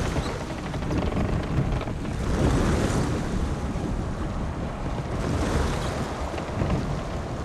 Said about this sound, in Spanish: Una barcaza se acerca a la costa.